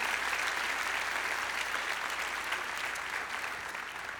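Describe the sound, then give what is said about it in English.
An audience applauds steadily to welcome a guest onto the stage at a Day of Champions event; the guest is a former University of Georgia defensive end and former Gameday host. The dense clapping stays strong throughout and eases only slightly at the end. “You guys can put your hands together and welcome him.”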